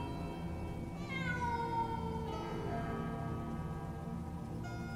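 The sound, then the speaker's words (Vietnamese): A stray cat gives one long, drawn-out meow that starts high and slides down in pitch, heard alone over a steady low background. “Cho đến khi cái thứ kia nó kêu lên thì chúng tôi mới nhận ra là một con mèo hoang, chứ không phải là yêu tinh quỷ quái.”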